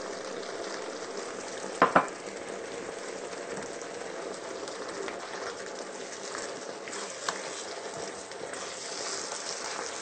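Crushed red pepper flakes and sugar frying in a pan give a steady, even sizzle throughout, broken by a couple of brief knocks.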